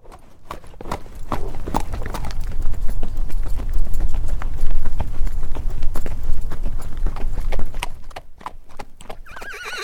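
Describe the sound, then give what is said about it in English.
A horse's hooves pounding the ground at a run in rapid, loud clip-clop beats, with a whinny breaking through. The hoofbeats swell to a peak midway and then fade toward the end. “Now here is an energy of movement, of running, of the earth being pounded by hooves.”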